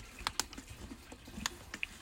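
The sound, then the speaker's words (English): Keys clatter on a computer keyboard in a faint, irregular run of light clicks, some taps sharper than others, with no talk. “Oh, wait, let me type on my...”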